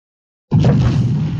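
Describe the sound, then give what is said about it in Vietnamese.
Underground explosions rumble through a cavern: after half a second of silence, a loud, deep boom erupts abruptly and holds as a heavy, low roar to the end. “toàn bộ không gian trong lòng đất chợt rung động, phát ra những tiếng nổ lớn ầm ầm”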